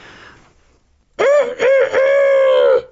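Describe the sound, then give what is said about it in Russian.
A rooster perched on a gate crows loudly with all its might. One long, harmonic, wavering crow of about a second and a half follows a brief faint sound. “на воротах которого сидел петух и кричал изо всех сил”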